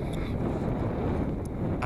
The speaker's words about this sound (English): it's so fucking windy. I'm like literally getting a headache from how fucking windy it is.